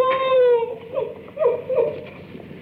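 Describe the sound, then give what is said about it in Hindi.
A woman cries in a dramatic film scene. A long wavering wail slides gradually lower in pitch, followed by a few shorter, softer sobbing whimpers. “ओहो, तो तू रोती क्यों है?”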